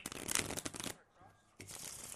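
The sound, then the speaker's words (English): A deck of playing cards is handled and cut at a table, giving crisp, papery rustling and flicking in two busy bursts with a short quiet gap between them. “All right, now we've just cut the deck.”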